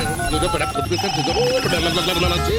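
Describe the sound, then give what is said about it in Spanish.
The ringing tone of an outgoing telephone call, a repeated electronic ring heard under continuous talking. “Y vamos llamando a nuestro amigo.”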